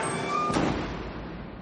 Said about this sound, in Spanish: Le empuja contra la pared. Cierra la puerta del calabozo.